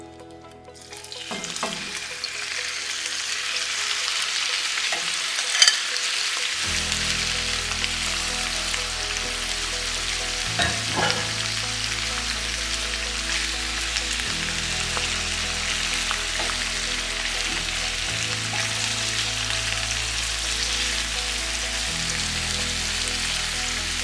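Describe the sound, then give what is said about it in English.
Shrimp sizzling in a medium-high frying pan, a loud continuous crackling fry that holds steady throughout with a low hum beneath, no voices. “So we're gonna add the shrimp right to the medium-high pan. We're gonna get a nice sizzle, and they're only gonna cook maximum about 3 minutes, super duper quick.”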